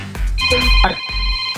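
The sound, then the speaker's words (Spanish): A telephone ringing with steady electronic tones that sound through most of the moment over a low rumbling background. “¿Cómo se contesta? Aquí suena el 2.9. Ay, qué mala suerte con las llamadas.”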